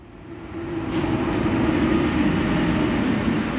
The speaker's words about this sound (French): On est sur le quai du RERB à Châtelet.